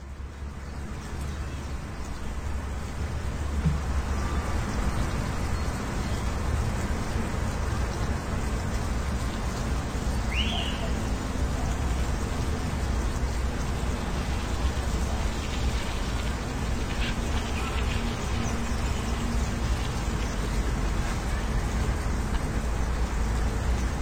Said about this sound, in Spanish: nos resultaba curioso escuchar el paisaje sonoro de una orilla del río y que, como un murmullo al fondo, se escuchaba la ciudad, y la ciudad eran coches.